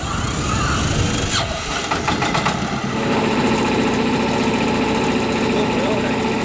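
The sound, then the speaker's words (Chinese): A boat engine starts up on the quiet surface of a large lake at seven in the morning, giving a steady, broad mechanical rumble that runs without a break across the whole clip. “早晨七点，静静的鄱阳湖面突然传来一阵机器发动的声音。”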